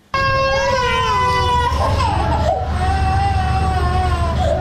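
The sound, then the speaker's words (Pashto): Sick children crying in a provincial hospital ward in Tarinkot, young patients with measles or diarrhoea: loud, continuous high wailing with wavering pitch fills the whole clip over dense background noise. “دا جړاوی د هغه ماشومانو دي چې اوس مهال تازه د نسناستي او یا هم د ایسحال په ناروغي اخته دي”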